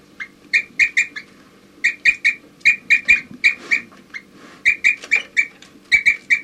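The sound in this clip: Tonal 'toop' calls from a group of birds ring out in quick bursts of three or four notes, clear and fairly high-pitched, repeating many times over a low, steady background rumble.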